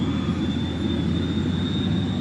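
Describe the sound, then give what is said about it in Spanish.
Airplane engine roar as the plane comes in to land: a steady, dense low rumble with a thin, sustained high whine running through it, unbroken and even in level throughout. “¡Ponte el cinturón que vamos a aterrizar!”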